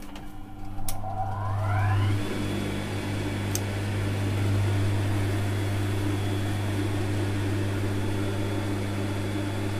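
A powerful sewing machine runs, its motor rising in pitch as it spins up and then holding a loud, steady drone, with no talk.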